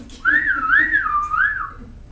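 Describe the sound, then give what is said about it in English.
A person whistles one sustained note that warbles up and down in a slow, even wave for about a second and a half, then trails off. “And then this is whistle.”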